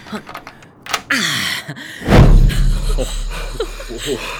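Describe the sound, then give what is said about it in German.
A door in a museum being unlocked and opened: a few short clicks of the lock, then a heavy thud and a low, rumbling swell that lingers. “Schließ die Tür auf.”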